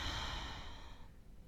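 A deep breath taken during a relaxation exercise, heard as one long, soft, airy exhale that trails off gently toward the end.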